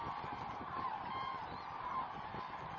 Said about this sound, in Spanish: Solo al siguiente amanecer las grullas vuelan de nuevo para alimentarse en los campos de maíz cercanos.